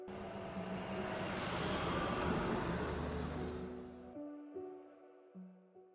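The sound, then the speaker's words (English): A car drives off: a loud, broad engine roar swells and holds for about four seconds, then drops away abruptly, leaving quieter tonal mechanical sounds. “begins to drive off.”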